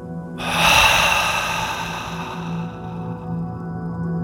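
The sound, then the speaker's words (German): A deep breath is drawn in and then blown out forcefully through the mouth during a guided breathing exercise: one long, loud, airy rush that slowly fades over faint, steady background tones. “Und noch ein letztes Mal die Lungen mit reiner Luft vollpumpen und die verbrauchte Luft stark durch den Mund ausatmen.”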